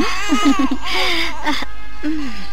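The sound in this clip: A baby crying in wavering, whimpering bursts, its high voice sliding up and down in short uneven cries that run on with few pauses.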